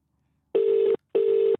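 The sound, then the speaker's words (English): Telephone ringing on an outgoing call: two short, steady buzzing tone bursts of equal length, separated by a brief silent gap, clear and alone. “See if he's in. Well, there he goes, ringing.”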